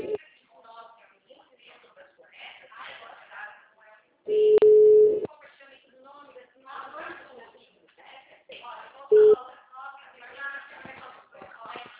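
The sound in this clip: A telephone tone cuts in after a dropped call, one loud, steady beep of nearly a second and later a short second beep, both over ongoing talk.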